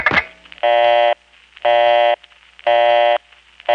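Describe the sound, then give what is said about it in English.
A telephone line gives a short click, then a busy signal: three evenly spaced, buzzy tones of about half a second each, separated by quiet gaps. “I decided to then try dialing my own number to see if I got a distinctive click before the busy signal, and sure enough,”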